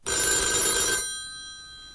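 An office telephone bell rings in one loud burst of about a second, then its bright metallic tone lingers and slowly fades, with no voices.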